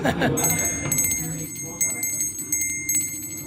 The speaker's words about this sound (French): Vous avez une petite clochette, c'est pourquoi ? Pour annoncer le prochain round.